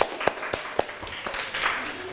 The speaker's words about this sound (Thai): ปรบมือให้ตนเอง